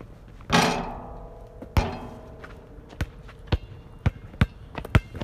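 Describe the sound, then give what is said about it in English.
Basketball dribbling bounces from a video game crossover dribble: a run of sharp, hollow thuds with uneven spacing, the first two spread apart and the later ones coming quicker. “Crossover dribble, shoot the three.”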